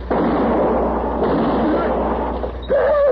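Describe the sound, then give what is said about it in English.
A gunshot rings out during a western stagecoach holdup, a loud blast that stretches into a roaring burst of noise for over two seconds before a voice begins. “You shot my husband.”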